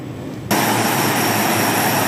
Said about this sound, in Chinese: 随着起飞指令下达，运输机急速升空，飞向任务空域。